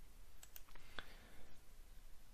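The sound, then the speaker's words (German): A few faint, crisp computer mouse clicks, one sharper and louder than the others, over a low background hiss. “wir drücken einfach hier mit der Maus mal drauf”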